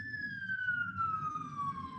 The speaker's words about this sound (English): I'm sorry, there's another siren.